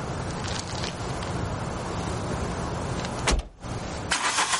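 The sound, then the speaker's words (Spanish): A car's engine runs steadily as the driver reverses and drives off, with a brief break in the sound near the end before the engine noise returns. “La conductora da marcha atrás.”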